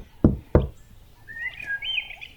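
Two sharp knocks on a door ring out in quick succession, followed by faint bird chirps.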